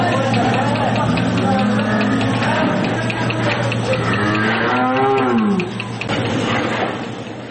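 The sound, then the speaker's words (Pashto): Cattle moo on a machine-milked dairy farm of 140 cows in the Dand district of Kandahar, with drawn-out, resonant lowing calls that rise and fall over a steady low hum. “د کندهار د ډنډ ولسوالۍ د غواګانو په دغه فارم کې 140 غواګانې سته”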